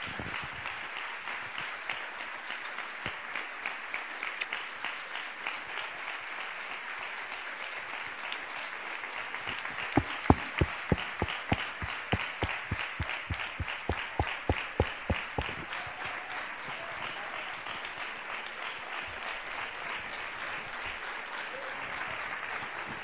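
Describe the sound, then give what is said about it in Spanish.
Audience applause at the close of a town fair proclamation speech in Ubrique: a long, dense wash of clapping that turns into loud, rhythmic unison claps midway, then settles back into steady applause. “Venga ese aplauso.”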